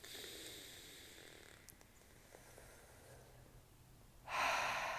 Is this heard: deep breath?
yes

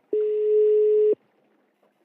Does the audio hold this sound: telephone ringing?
yes

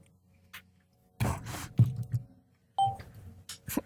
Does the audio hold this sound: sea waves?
no

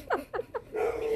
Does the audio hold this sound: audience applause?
no

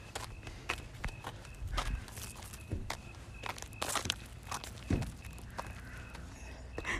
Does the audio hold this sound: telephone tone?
no

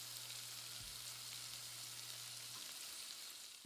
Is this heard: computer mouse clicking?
no

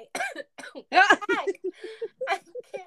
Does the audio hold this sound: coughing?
yes

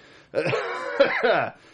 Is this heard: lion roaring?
no

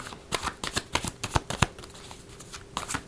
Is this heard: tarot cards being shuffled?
yes

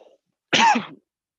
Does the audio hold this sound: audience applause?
no

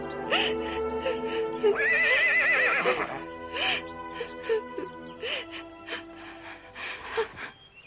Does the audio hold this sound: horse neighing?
yes

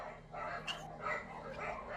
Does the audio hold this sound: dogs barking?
yes

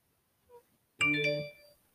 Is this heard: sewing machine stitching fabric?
no

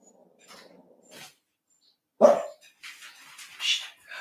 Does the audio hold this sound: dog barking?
yes

